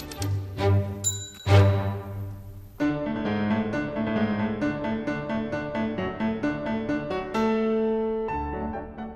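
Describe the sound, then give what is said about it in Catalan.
Schubert's Marche militaire No. 1 played on piano four hands: a brisk march of quick repeated chords and bright notes, with a steady pulse at moderate loudness and no voices. “I aquesta música que estem sentint de fons, doncs és probablement, podríem dir que és la música que té més marxa, perquè és coneguda popularment amb el títol de Marxa de Schubert. És la primera de les sèries de les tres marxes militars per a piano a quatre mans”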